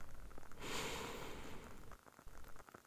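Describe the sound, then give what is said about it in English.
A long, slow, deep breath drawn in during a guided breathing exercise: a soft, airy rush lasting well over a second that fades gradually, faint and heard alone with no talking. “Nice, long, slow, deep breath in.”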